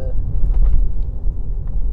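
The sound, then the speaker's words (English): Car accelerating on the road: a loud, steady low engine rumble that swells and dips slightly, with no clear distinct events on top. “I had this driver kind of erratically speeding up behind me. So I accelerated so they didn't hit me.”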